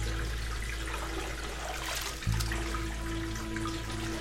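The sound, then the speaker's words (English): Bath water drains down the drain as a steady, low rushing gurgle over a humming undertone, with a brief thump near the middle. “Rubber Ducky won't go down the drain, will he?”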